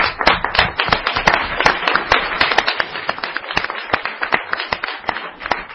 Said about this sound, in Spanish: los que se merecen el aplauso, sois vosotros.